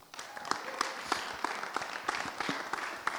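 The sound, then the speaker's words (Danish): Quiet applause from an audience welcoming a speaker, with many individual claps standing out in a loose, uneven rhythm. “Og ellers så synes jeg, vi skal byde Thomas velkommen, så giv ham en stor hånd.”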